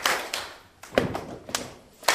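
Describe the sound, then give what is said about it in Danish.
Body-percussion rhythm of a stamp on the floor, a slap on the thigh and two quick hand claps, sharp percussive hits that repeat in an uneven pattern with short gaps between groups. “Man skal simpelthen bare trampe en gang på gulvet, så slår man en gang på låret, så laver man to hurtige klap, så det ser sådan her ud.”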